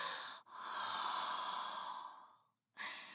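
A long, soft breath blown out, a steady airy hiss lasting about two seconds that fades away, followed by the start of another exhale.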